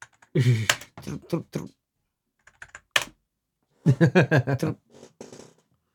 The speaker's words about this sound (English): You guys have to listen to me type anyway.